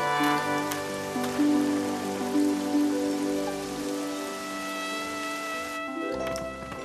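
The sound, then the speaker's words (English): Rain falls in a steady, dense hiss, with sustained musical tones held underneath and shifting slightly before the sound thins near the end. “Now it's starting to rain.”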